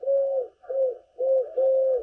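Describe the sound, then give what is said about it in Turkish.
Dove cooing recorded in Istanbul: four low, smooth coo phrases in a steady rhythm, each a soft, hollow, sustained note with brief gaps between them, heard alone without voices. “Kumru'yu da Orhan Gül İstanbul'da kaydettiler.”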